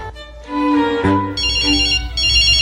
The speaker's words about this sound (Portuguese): Olha só, gente. Que coisa estranha. Simplício ligando pra mim hora dessas.